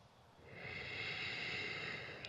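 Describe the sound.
A slow breath drawn in through the nostrils: a soft, airy hiss that swells and holds for under two seconds, quiet and on its own.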